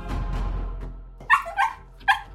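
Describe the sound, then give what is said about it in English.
Three sharp, bright dog barks, the first two close together and the third after a short pause, sound after a duller, rumbling passage at the start. “that's a dog. Dog. That is correct.”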